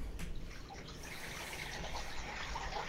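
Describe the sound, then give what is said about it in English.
Liquid being poured, a faint, steady trickling gush that runs without a break for the whole span, with no talk over it. “I heard a liquid sound, yeah. What does it sound like on your end? It just sounded like something getting poured.”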